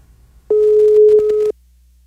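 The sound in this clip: A single steady ringback tone on an outgoing phone call lasts about one second. It is mid-pitched, even and fairly loud, with silence before and after.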